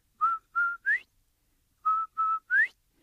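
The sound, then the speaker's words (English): Whistling by a person imitating a quail using a turtle's borrowed whistle: two sets of three clear, high whistles separated by a pause. In each set the third note sweeps upward in pitch. “So old turtle lets Quail borrow his whistle. So Quail standing there, he makes that beautiful sound.”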